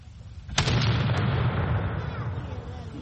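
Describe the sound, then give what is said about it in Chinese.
A 16th-century cannon fires at an artillery demonstration for spectators, one sudden heavy boom followed by a long, rolling rumble that slowly fades. “而这一门是16世纪的火炮， 开火！”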